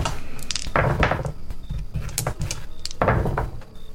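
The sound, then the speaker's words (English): Dice rolled during a tabletop fantasy role-playing game: a few bursts of sharp clattering rattles and clicks, one near the start and another toward the end, over a busy background. “Oh, that was 3 ones I just rolled.”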